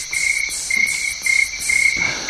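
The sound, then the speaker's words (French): Cicadas chirping through open windows in winter, a loud, shrill, high buzz that swells and breaks off in a regular series of short pulsing bursts, with no voices. “Mais qui a ouvert les fenêtres ? C'est bizarre ces cigales en hiver.”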